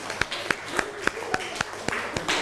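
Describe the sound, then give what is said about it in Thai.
Students in a classroom clap for a classmate in a quick, evenly spaced run of sharp claps, with voices audible between them. “เพื่อนบอกว่ามังกรน่าสนใจปรบมือให้เพื่อนหน่อยครับ”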